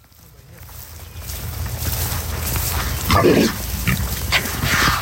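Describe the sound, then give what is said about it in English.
Pigs being fed in the morning on a small family farm raising pasture-raised animals, a steady rustle of noisy activity with louder bursts of squealing and grunting near the middle and end. “That's the sound of us feeding the pigs this morning.”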